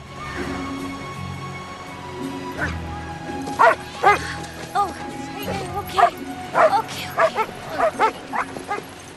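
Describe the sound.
Dogs on leads at a beach yip, bark and whimper, with a few thin whines early on, then a busy run of many sharp, high yelps and barks in quick bursts that stays fairly loud to the end.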